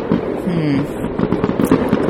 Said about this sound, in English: The military tattoo is wrapping up, which I can tell because those were the sound of fireworks in the distance.